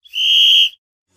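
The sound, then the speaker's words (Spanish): A referee's whistle signals the start of a match with one sustained, high, steady blast lasting just over half a second, heard alone and followed by silence. “colegiado, haga sonar el silbato de inicio del encuentro.”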